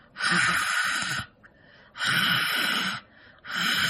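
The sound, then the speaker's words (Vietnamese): A voice imitates the raspy, heavy exhaled breathing of a strange late-night phone caller: three long, hoarse, breathy exhalations, each about a second, separated by short pauses. “Mà bây giờ không nghiến răng nữa mà bắt đầu thở. Mà thở cái kiểu rất là kỳ, thở cái kiểu hà hơi á các bạn, dạng vậy nè.”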